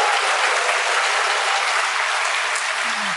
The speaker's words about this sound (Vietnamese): Các bạn trai vỗ tay làm cho các bạn gái nhìn xuống.